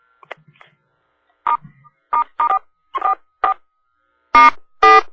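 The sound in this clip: Telephone keypad tones as conference-call participants press star and 4: a series of short electronic beeps at irregular spacing, the final two louder and fuller, with no talking.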